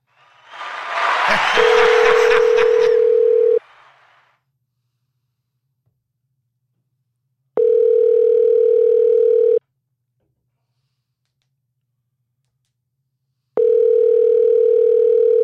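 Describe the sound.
Telephone tones while a call is being placed: a steady tone under a brief crackly rush, then two more long, level beeps, each about two seconds, separated by stretches of silence.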